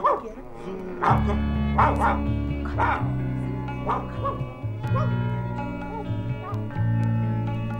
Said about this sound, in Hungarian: Ez Bors néni édesapjának a kutyája.